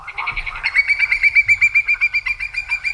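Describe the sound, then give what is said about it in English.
A whimbrel, a migratory sandpiper on Cape Cod, gives its call: a loud, rapid, even series of clear whistled notes at a steady high pitch, rippling on for a couple of seconds. “That is the call of a whimbrel.”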